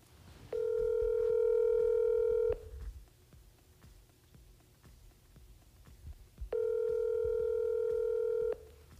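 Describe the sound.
Telephone ringback tone heard while calling someone: two long, steady buzzing rings, each about two seconds, separated by a pause of roughly four seconds. The tone is fairly faint over a low background hiss.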